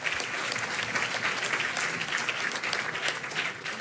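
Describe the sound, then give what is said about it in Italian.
Audience applause, a dense, continuous crackle of many hands clapping at a steady moderate level for the whole stretch, with no clear breaks or peaks. “io gli farei un altro applauso perché è veramente un grande esempio”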